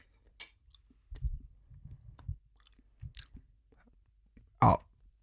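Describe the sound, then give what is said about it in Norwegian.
Chewing a mouthful of powdery, porous rice with a grilled, smoky flavour: soft, irregular crunchy bites and mouth sounds, then a louder crunch near the end. “Utrolig vanskelig å få ned. Det må jeg bare første her, vel. For det blir litt sånn pulver, det blir litt porøst, rett og slett. Det var ikke... Jeg føler når du tygger ris, så tygger du på en måte ikke ris.”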